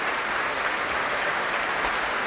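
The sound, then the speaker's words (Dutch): Thunderous applause in the main hall of the Concertgebouw, a dense and even roar of many clapping hands that stays loud and unbroken throughout. “Een daverend applaus hier.”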